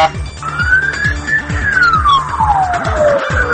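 A special-signal vehicle's siren wails loudly on the road, its tone rising and then sliding slowly down over a rapid, repeating lower warble.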